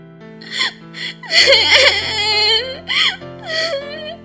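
A person sobs and whimpers in a few wavering, high cries that swell and break, with a steady sustained tone running underneath.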